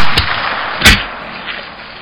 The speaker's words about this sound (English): And you shouldn't shoot a man on two.